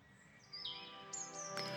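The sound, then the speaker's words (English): Birdsong from robin, mallard, carrion crow, green woodpecker, blackbird and warbler by dark water at a wooden gate: a few faint, high chirps and whistles over a quiet, steady background. “Robin, mallard, carrion crow, green woodpecker, blackbird, willow warbler, jackdaw, chiff-chaff, great tit, dunnock”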